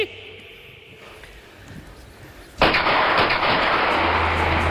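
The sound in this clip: Gunfire in a battle scene erupts suddenly after a quieter stretch, becoming a dense, loud, continuous roar of shooting that holds steady to the end.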